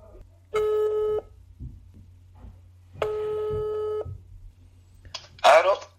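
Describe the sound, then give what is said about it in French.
Two long, steady telephone ring-back tones sound as a call is placed, separated by a pause over a low hum. A brief voice follows at the end. “je vais l'appeler en direct. Ça sonne, c'est parti.”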